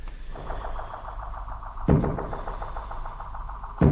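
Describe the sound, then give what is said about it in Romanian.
Knocking on a monastery gate: two heavy, dull thuds about two seconds apart over a low, steady pulsing hum. “S-au și închis porțile mănăstirii. Nu, e încă de vreme, de ce? Mi s-a părut că aud bătăi în poartă.”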